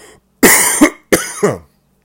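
Throat clearing and coughing from someone with a scratchy throat: two harsh, loud bursts, each ending in a second push, separated by a short pause.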